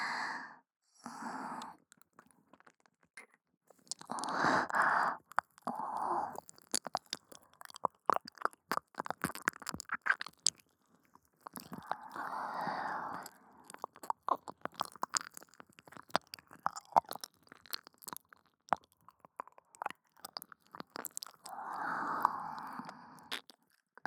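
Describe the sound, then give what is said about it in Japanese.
Teeth crunch into a firm, ear-shaped wild mushroom with a crisp, springy bite, producing many sharp, quiet clicks of chewing. Soft breathy sighs break in between the bites. “一回かじって確認しますね”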